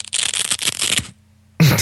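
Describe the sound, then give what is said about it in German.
A velcro fastener on a Pixel Pocket Rocket memory card pouch being torn open: a rasping rip lasting about a second, a brief pause, then a second, shorter and louder tear. “Ah, das ist ein Klettverschluss. Das ist schon mal nicht schlecht. Hat aber weniger mit Turnschuh zu tun, sondern mit der Pixel Pocket Rocket, die jetzt bei Enjoy Camera im Katalog gelandet ist.”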